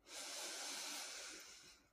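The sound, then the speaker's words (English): A deep inhale through the nose during a guided breathing exercise: one long, soft, airy hiss lasting nearly two seconds, steady and then tapering off, with no talk. “let's take a deep inhale in through the nose.”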